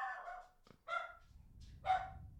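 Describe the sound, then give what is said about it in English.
A dog barks three times at home, in short, harsh bursts separated by a low background rumble, with no voices. “Like the dog was finishing your sentence.”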